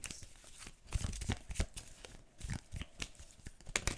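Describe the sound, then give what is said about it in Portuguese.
Cards falling and being handled, many short papery rustles and crinkly slaps in an uneven rhythm, fairly faint. “Ai, está a cair aqui quantas cartas.”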